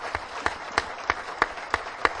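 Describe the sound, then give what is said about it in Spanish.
Audience applause for Rafa Nadal comes as rhythmic clapping in unison: seven evenly spaced beats at a brisk, regular tempo, fairly faint over a low background hiss. “Me va a permitir que pida a todos los que nos acompañan aquí un aplauso para su paisano Rafa Nadal y otro para usted por haber conseguido eso”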